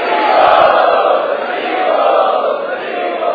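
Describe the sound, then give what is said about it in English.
An audience loudly chants together to welcome special guests at an evening gathering, a sustained swell of many voices that holds steady throughout. “Both of them are helping us a lot in our preaching mission. They are the special guests this evening. Let us welcome them by loudly chanting.”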